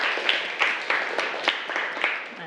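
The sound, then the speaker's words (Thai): Students in a classroom clap for group 3, a fairly faint, loose run of scattered handclaps with distinct individual smacks spaced unevenly rather than a full ovation. “ปรบมือให้กลุ่ม3หน่อยนี่คือผลงานของกลุ่ม3นะคะ”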